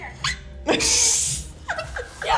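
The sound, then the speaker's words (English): Noises from a dog in an elevator: a few short, sharp, snorting bursts around a longer, breathy huff in the middle, at a moderate level. “But you made that noise. No, that's the dog.”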